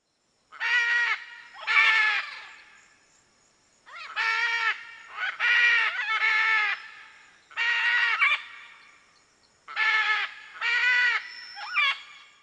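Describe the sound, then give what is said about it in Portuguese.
A macaw calls in the Amazon forest, giving many harsh, raspy squawks in short clusters of two or three, each call loud and nasal with pauses of quiet between the groups. “Este é o som da arara, a ave símbolo da Amazônia, que está presente em todo o território brasileiro.”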